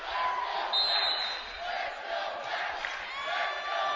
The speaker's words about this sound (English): You can hear the crowd chanting in the background.